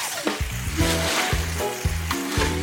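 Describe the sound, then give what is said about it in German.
A steady, hissing spray of water rinses spilled oil from a small whale's head during an oil-spill cleanup. The loud, broad wash of noise continues throughout without pause. “Okay, und jetzt abspülen. Wasser!”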